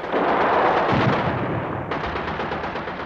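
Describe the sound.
Gunfire during a patrol at the outposts in Indochina, from archival war reportage of Vietnamese fire: a dense, loud, continuous roar of shots with no clear gaps between bursts, and no talk.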